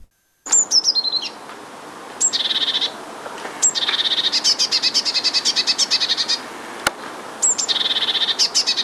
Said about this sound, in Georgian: დიდი წივწივა ბეღურას ნაირთა რიგის ჩიტია. მას და მონათესავე სახეობებს საქართველოში ბევრს ნახავთ და ალბათ ხშირადაც გაგიგიათ მისი გალობა.